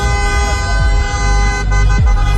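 Car horns honk in celebration as Moroccan fans rejoice after Morocco knocks the Netherlands out of a match. Several loud horns blare together in a steady, unbroken din throughout.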